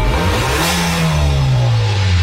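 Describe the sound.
A used Acura car engine accelerating: a loud, continuous roar with a strong low droning tone that slides gradually downward, with no talk.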